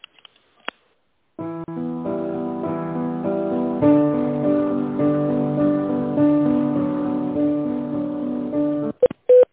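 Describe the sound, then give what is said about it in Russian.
Telephone hold music plays while a call is transferred to an accounting department, a steady tuneful phone-line melody lasting several seconds, with a few short clicks before it starts and after it stops. “Бухгалтерию сейчас переключу,”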